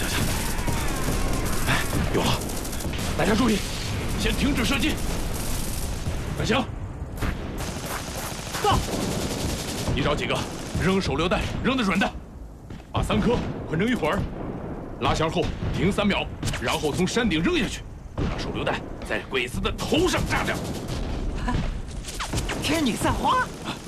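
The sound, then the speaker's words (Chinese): Heavy gunfire in a battle on a rocky hill: dense, loud volleys of rifle and machine-gun fire with booming blasts, nearly continuous with a few short lulls, and people talking and shouting amid the shooting. “敌人火力太猛，我们的人伤亡不少啊！”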